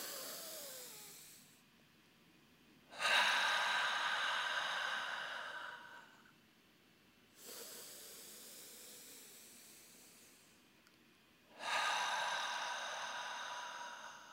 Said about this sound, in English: Ready? Inhale through the nose.